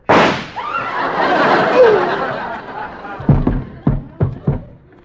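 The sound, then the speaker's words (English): A single loud gunshot from a gun in a radio comedy cracks at the start, followed by sustained audience laughter that ends in a few sharper bursts. “Hoppy must have sold me a real gun.”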